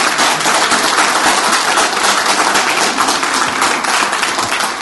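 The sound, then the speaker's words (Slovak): Audience applause thanking an improvised band and singers, a dense, steady wash of many hands clapping at full strength through the whole stretch, with no talk over it. “a ja chcem poďakovať aj vo vašom mene tejto improvizovanej, ale veľmi flexibilnej hudobnej skupine a spevákom, ktorá nás tu sprevádza, a potleskom im vyjadrime svoju vďačnosť.”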